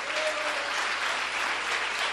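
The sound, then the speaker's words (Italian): An audience claps in church during a sermon in praise of Jesus: thick, steady applause from many hands, even in loudness throughout. “Vuoi dargli un applauso al Signore Gesù?”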